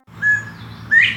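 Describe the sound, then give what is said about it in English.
A northern bobwhite gives its two-tone whistle: a clear, level first note, a short pause, then a louder second note that sweeps sharply upward in pitch. Both notes stand out alone over a faint low background. “The Bob White referred to in that sighting makes a two-tone whistle that sounds like this.”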